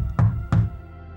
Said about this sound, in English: The grandparents knock,